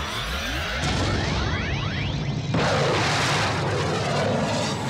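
Rocket liftoff roar after a countdown: a loud, steady rumble throughout, with sweeping whooshes early on and a sudden surge of louder roaring midway.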